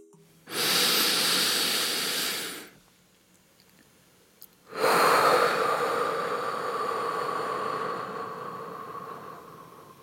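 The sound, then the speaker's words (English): Two forceful exhales through the nose, each a loud, rushing breath hiss. The first lasts about two seconds and stops sharply. After a quiet gap, the second lasts longer and fades slowly. “and then you blow out forcefully from your nose. And as you blow out, you just envision the butterflies flying away.”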